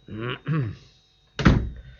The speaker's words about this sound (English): She's put out. She banged the door.